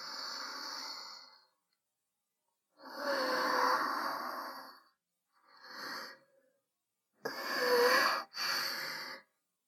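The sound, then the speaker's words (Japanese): Deep breaths taken to calm nerves: several long, airy breaths separated by short pauses, fairly quiet and with no talk. “え？一旦深呼吸、ですか？そうですね。”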